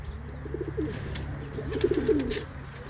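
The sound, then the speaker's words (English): Racing pigeons coo outdoors in two soft bursts of low, throaty rolling calls over a steady low hum. “if you hear these little noises in the background that sound like chickens, they're not chickens. Those are pigeons.”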